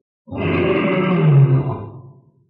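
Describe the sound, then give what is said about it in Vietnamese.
A terrifying demonic roar from a bull-demon warrior in a fantasy battle: one deep, rough, growling roar that swells to a peak and then trails off into a low rumble, loud and alone. “Đột nhiên một tiếng ma khiếu đáng sợ truyền ra, Ngưu Nghĩa”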